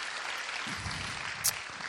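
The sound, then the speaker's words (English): Applause from an audience at a church service for a speaker, a short, even burst of clapping. “Can we just give John a round of applause for that?”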